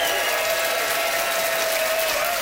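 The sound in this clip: An audience applauding to cast its vote for a contestant in a live debate, with dense, steady clapping that holds at an even level throughout.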